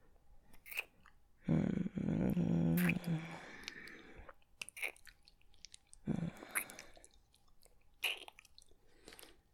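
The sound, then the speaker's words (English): Someone eats dessert slowly, chewing and biting food in faint, irregular crunchy bursts, one longer run of chewing amid several short bites, with quiet pauses between. “I told you, I'm a slow eater. And I'm saving the best for dessert.”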